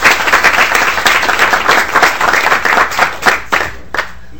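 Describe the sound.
Applause greets visiting government students from a school district at the state Capitol, a brisk, loud burst of many hands clapping that stays dense for several seconds before thinning out and fading near the end.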